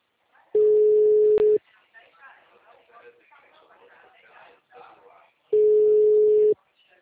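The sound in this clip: Telephone line tone after a dropped call: two long, steady, low-pitched beeps of about a second each, separated by several seconds of quiet voices talking.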